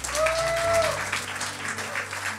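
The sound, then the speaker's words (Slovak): Church audience applauding to honour a speaker, a dense, continuous wash of clapping that stays fairly even in loudness for the whole stretch. “Môžeme si uctiť Janka jedným potleskom.”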